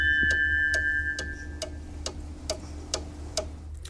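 A studio clock ticks steadily with crisp, evenly spaced ticks about twice a second over a constant low hum and a faint steady tone.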